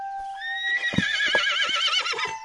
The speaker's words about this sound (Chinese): 您的马真是想家了，他踏上这条路时就兴奋不已，到了大人家门口又止步不走，多有灵性啊。